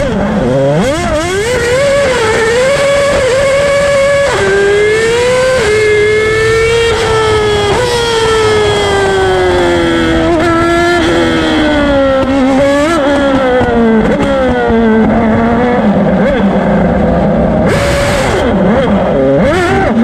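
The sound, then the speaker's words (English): RB7 race car engine revving at full speed: a loud, continuous, high-pitched wail whose pitch repeatedly climbs and drops as the throttle opens and eases, with no voices over it. “Here it is with just a few revs. Now, get ready. This is the RB7 opening up at full speed.”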